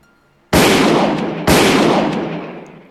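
Two loud blasts from a double-barrel shotgun in a video game, about a second apart, each with a sharp onset and a long, broad, fading tail.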